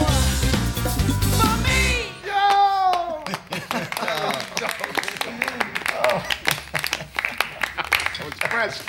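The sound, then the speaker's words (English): A group claps after a song ends in a movie musical. A short burst of music cuts off, then voices exclaim and talk over irregular, crisp claps that continue to the end. “And the song's over. They all applaud.”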